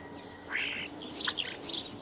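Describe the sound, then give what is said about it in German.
A tit and a starling sing together: a buzzy, warbling burst of song is followed by several sharp, high, whistled chirps. The birdsong is moderately loud, with no voices. “Das da. Hört ihr? Ja, das ist eine Meise. Und das ist natürlich fetter Starmatz.”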